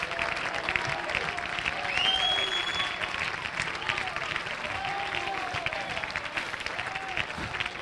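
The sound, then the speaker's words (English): A church audience clapping and cheering, with dense, steady applause, voices calling out underneath and a short rising whistle near the start. “Come on, clap your hands, lift your voice.”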